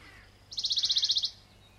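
A songbird at Ottenby lund on Öland sings one rapid, high-pitched trill of many evenly spaced bright notes, lasting under a second against a faint, quiet background.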